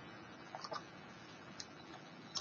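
Sparse typing on a computer keyboard, a few faint, light clicks spread out over a low, steady hiss.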